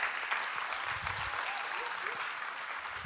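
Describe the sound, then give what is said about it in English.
A church audience gives steady applause as a guest is welcomed on stage. Dense clapping fills the whole stretch at an even level, without a clear rise or fall. “would you put your hands together as we welcome uh, Tony Read? Let's put our hands.”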